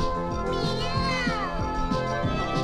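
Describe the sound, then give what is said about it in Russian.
A cat's meow in a children's exercise recording: a drawn-out harmonic cry that swells and falls in pitch, heard over a steady rhythmic musical backing. “Мяу. Жалко кота.”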